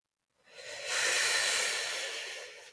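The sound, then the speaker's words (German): A long, almost toneless breathy exhale shaped as a soft 'hu' in a guided breathing exercise. The airy hiss swells in quickly, holds steady for about two seconds and eases slightly at the end. “Jetzt atme tief ein und atme fast ohne Ton mit dem Laut Hu aus.”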